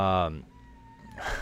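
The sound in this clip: A cat cries because it is upset: a short, wailing meow sounds beside a talking voice, then a faint, thin tone lingers before more voice sound returns.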